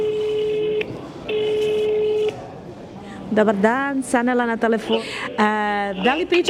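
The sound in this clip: Ringing tones sound as a telephone call is placed to a hospital: two long, steady tones separated by a short gap, then a voice answers and talking follows.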